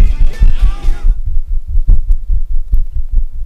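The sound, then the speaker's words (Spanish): Rhythmic puffs of air from someone fanning herself to cool off, heard as many soft, low thumps against the mic that follow a brief broader rush of air at the start, with no talking. “Me estoy abanicando. Literal. No pensé que me iba a dar tanto calor.”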